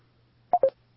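Two short telephone keypad dialing tones sound in quick succession as a phone call is placed. Each tone is a clean, steady beep, heard over a faint low hum.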